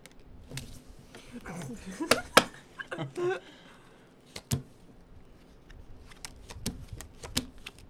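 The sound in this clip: Playing cards slapped down onto a table during a heated card game, a few sharp, crisp smacks rising out of low table noise while people talk.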